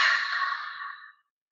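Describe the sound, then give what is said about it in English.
A single long exhale during a breathing exercise, a steady breathy hiss that slowly tapers off over about a second and fades into silence. “I sip in a little more air and I hold it, let's say for a count of 5 for this. Okay, 1, 2, 3. And then I exhale”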